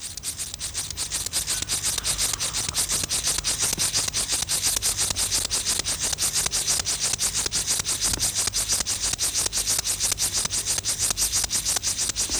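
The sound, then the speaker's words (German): Stridulation of a Linnaeus grasshopper, a small field grasshopper, rubbing its hind legs across its forewings. A loud, steady rasping made of many rapid, even pulses runs unbroken through the whole clip. “Besonders gut eignet sich dazu der Linnaeus-Grashüpfer. Das ist eine kleine Feldheuschrecke. Sie erzeugt ihren Gesang, indem sie die Hinterschenkel über die Flügeldecken reibt.”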